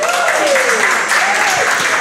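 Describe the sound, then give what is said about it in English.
Audience applause welcoming a high school linebacker and quarterback at a football coaches show: steady, dense clapping throughout, with a voice speaking over it. “Everybody give them a please warm welcome for this.”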